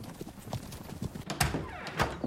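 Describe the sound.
Horses' hooves clip-clop as a riding party sets off, many uneven hoof strikes in a loose, continuous rhythm at moderate volume, with no talk.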